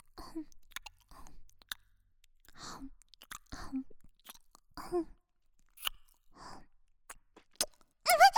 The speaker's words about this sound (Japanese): 甘噛みしちゃいます。